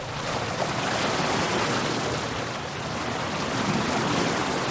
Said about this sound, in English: For us, this is the sound of the sea.